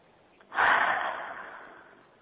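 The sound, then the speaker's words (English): A single slow breath during a guided meditation, a soft, airy hiss that swells quickly and then tapers off gradually, heard alone and faintly. “We'll keep continuing to breathe.”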